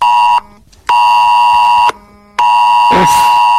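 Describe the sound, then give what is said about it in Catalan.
A house alarm sounds with a loud, steady electronic tone in three long bursts separated by two short silences, and a brief noisy rush breaks in near the end. “Que la casa és avui bé, amb els llums d'alarma i, sí, i el so activat.”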